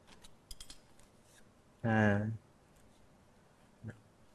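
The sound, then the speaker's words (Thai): Snipping as excess pipe insulation is cut to length during an air-conditioner condensing-unit installation: a few faint, sharp clicks near the start and one more near the end, with a brief voiced sound in the middle. “และทำการตัดตามระยะนะครับที่กำหนดนะครับนะตัดในส่วนของอินซูเลชันที่ยาวเกินไปนะครับ”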